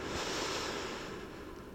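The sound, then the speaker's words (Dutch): A single slow, deep inhale during a guided reiki relaxation: a soft, steady, breathy rush that thins slightly toward the end. “Dan adem nog een keer diep in.”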